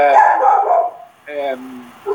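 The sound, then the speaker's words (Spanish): Dogs bark and yelp during a lecture in a few loud, tonal bursts: a long yelping stretch, a pause, a shorter bark, then a brief final yip. “Están ladrando los perros.”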